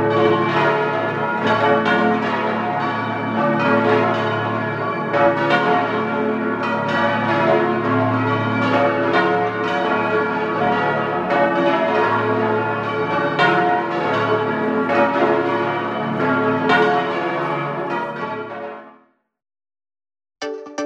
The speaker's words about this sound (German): Das schwere Geläute der Stiftskirche wurde in einer italienischen Glockengießerei gegossen.